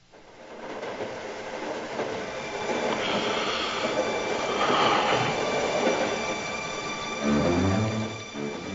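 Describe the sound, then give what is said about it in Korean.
A train travels on rails on the way home to Sicily, giving a continuous rumbling rattle with faint high whining tones that swells through the middle and surges again near the end. “고향 시칠리로 돌아오는 기차 안.”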